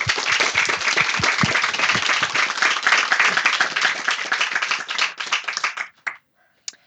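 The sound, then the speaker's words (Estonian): Audience applause at a public event presenting new social initiatives: dense, loud clapping fills nearly six seconds, then cuts off, leaving a few scattered final claps. “kui mitte, siis aitäh, aplaus Sigridile.”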